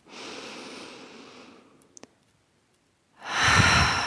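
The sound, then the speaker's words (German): Slow guided breathing, in through the nose and out through the mouth: a long, soft, airy breath fades out, a quiet pause with a couple of tiny clicks follows, then a louder, rushing breath begins. “Und das machen wir jetzt nochmal zusammen, dass wir einatmen durch die Nase.”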